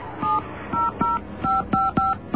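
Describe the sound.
Touch-tone telephone dialing a long-distance carrier access code: seven clear DTMF beeps, each with a soft key click, in uneven quick groupings. No talk.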